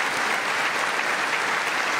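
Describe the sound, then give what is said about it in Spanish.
Applause in a congressional chamber after a speech: dense, even clapping from many hands, continuous and fairly loud for about two seconds with no gaps. “Ante el Congreso, Carlos arrancó aplausos con un discurso en defensa de la OTAN, de apoyo a Ucrania”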